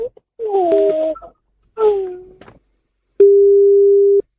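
A telephone line tone sounds as a radio host calls a listener in Eldoret: two short warbling tonal bursts, then a single steady, mid-pitched tone held for about a second before cutting off.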